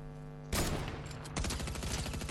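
Faint gunfire in a video game: one burst of shots about halfway through, then a second sustained volley of rapid, rattling automatic fire that runs on to the end.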